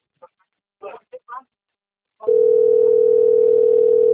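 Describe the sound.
A telephone dial tone, heard before a call is dialed, comes in after a few brief spoken words. It holds loud and unbroken at a single steady pitch through to the end.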